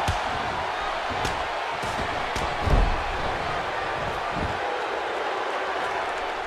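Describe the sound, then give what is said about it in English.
A power slam in a wrestling video game lands as one low, heavy thud partway through, over a steady roaring crowd that continues throughout. “Now with a huge power slam on the Stinger.”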